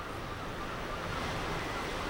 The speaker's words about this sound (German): Der Wind ist kalt.